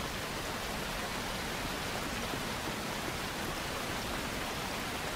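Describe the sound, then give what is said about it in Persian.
Rain pours in a steady, even hiss, soft and unbroken throughout, with no voices over it. “آسمونو ببین چارلی براون، کسی توی این بارون نمیاد اینجا.”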